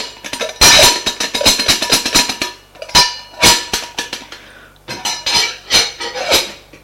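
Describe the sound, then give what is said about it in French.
Metallic clanking as a lid is set back in place: many sharp clinks, knocks and clatters of uneven loudness, in irregular bursts with brief pauses. “Et ils remettent en place le couvercle.”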